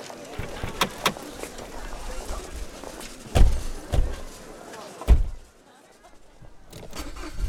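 Car doors thud shut a few times amid a continuous rumbling car noise, the heavy thumps standing out clearly before the sound drops to a quieter hum.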